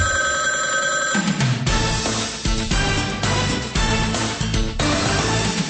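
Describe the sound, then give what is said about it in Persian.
Telephone bell ringing as a call waits for an answering machine to pick up: loud, dense metallic ringing tones that sustain through the whole clip, with no voices. “اگر شما زنگ زدید و ما را پیدا نکردید، باکی نیست، پیامگیری ما همیشه آماده است که صدای شما را ضبط کند.”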